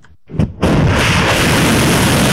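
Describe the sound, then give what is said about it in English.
Missiles launching at a US base, a few short sharp bursts giving way to a loud, sustained roaring rush that continues steadily to the end. “Iran said these missiles were launched at a US base that, it said, had been used to attack Iranian territory.”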